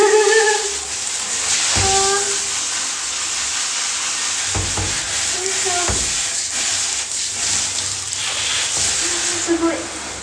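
Water is poured and rinsed across a bathroom floor to wash away urine, a continuous loud hissing spray with a few brief thumps and short vocal sounds over it.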